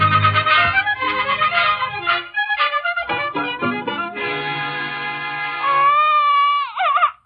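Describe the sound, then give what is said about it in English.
A baby cries, fretful from colic or hunger, in a long unbroken run of wailing whose pitch keeps shifting and wavers unsteadily near the end, with no speech over it. “It's a touch of colic, I know. No, Mother, he's just hungry. I'm sorry, my dear, it's colic. He's cried for 5 minutes.”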